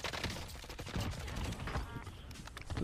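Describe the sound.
Rapid gunfire from an army video game, dense overlapping bursts of shots that run without a break, fairly faint overall.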